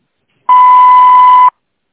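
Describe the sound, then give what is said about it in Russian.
Voicemail beep after a forwarded call: a single loud, steady, high-pitched tone lasting about one second, clean and alone, with silence before and after. “Вы можете оставить сообщение после звукового сигнала.”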